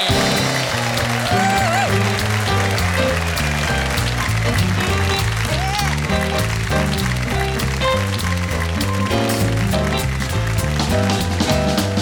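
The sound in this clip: Audience applause welcoming a guest onto the stage of a variety show, a dense, continuous clatter of clapping mixed with loud music that plays throughout.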